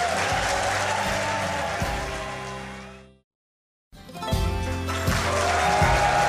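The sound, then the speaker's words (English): An excited crowd claps and cheers at a live event, a dense, loud wash of applause that cuts off into brief silence, then resumes just as full and steady. “If you're just joining us and you're hearing that very excited crowd, we are at a live event”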